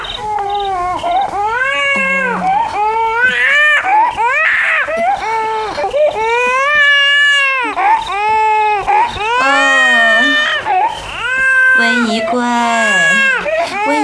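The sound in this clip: An infant princess cries in a palace, wailing loudly in long, rising and falling bursts that go on almost without pause, with short gasps between cries.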